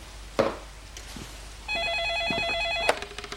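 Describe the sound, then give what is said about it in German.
A telephone rings with a warbling electronic trill lasting just over a second, preceded by a few faint knocks and followed by light clicks. “als das Telefon klingelt”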